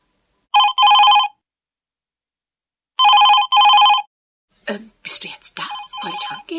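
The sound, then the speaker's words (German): A telephone bell rings in a home in two bursts, each a quick double ring, with a pause between them. A voice then starts speaking after the second burst. “Ich gehe schon ran und danach stellen wir auf Anrufbeantworter um.”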